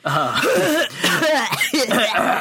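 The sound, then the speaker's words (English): Coughing and throat clearing in a classroom during a lecture on video games: a few harsh, abrupt coughs with voiced rasps run together with muffled voices. “Please don't cough while I'm talking.”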